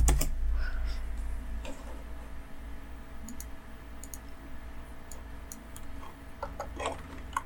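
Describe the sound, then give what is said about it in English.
Someone types on a computer keyboard, a few light scattered clicks over a low steady hum, faint and without talk. “I should type Ridge Wallet official channel.”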